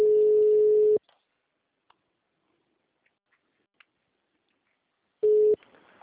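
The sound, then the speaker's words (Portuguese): Call-transfer tones on a phone line being put through to a human resources department: a steady mid-pitched beep lasting about a second, near silence with faint clicks, then a shorter second beep. “Só um minutinho que eu vou transferir. Tá ok, obrigado. Transferindo.”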